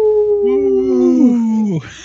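Wolf howling: two overlapping drawn-out tonal howls, one higher and one lower, holding steady and then sliding down in pitch before cutting off, loud and alone.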